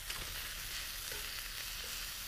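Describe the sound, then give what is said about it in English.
Oil sizzling on a grill as burgers cook: a steady, faint crackling hiss that holds evenly throughout, with no talking. “Yeah, so I put a lot of oil on there. That's what you're hearing sizzle.”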